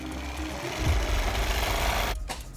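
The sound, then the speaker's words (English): A sewing machine stitches curved lines across quilt fabric, its motor giving a loud, steady, rapid whirring drone that runs unbroken for about two seconds before stopping abruptly, leaving a brief quieter tail. “sews curved lines across the fabric.”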